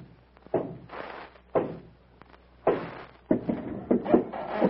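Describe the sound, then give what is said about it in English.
Heavy thuds and scraping as a massive iron-studded door opens when a stud is pressed. A few separate bursts are divided by quiet gaps, and the final stretch is longer and busier. “a massive iron-studded door across the end of the corridor. The end of the road, eh, Tarzan? We'll never get through that. It is like many of those in my father's palace in Rotor. My pressing on a certain stud, it will open. Let me try.”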